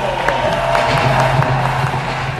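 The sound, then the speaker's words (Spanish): Crowd ovation for Spanish athlete Vega Jimeno as she takes the track: a steady roar of cheering mixed with scattered claps stays loud throughout. “Ovación para Vega Jimeno.”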